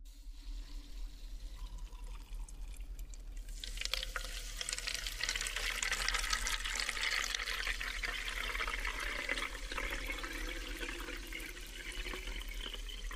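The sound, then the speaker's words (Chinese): Disinfecting solution poured into a small bottle: after a few seconds of quiet low hum, a soft, steady trickle of liquid begins and continues evenly to the end. “我现在是把药水倒在这个小的瓶子里，再把这个小瓶子倒进去，先给这个容器消毒。”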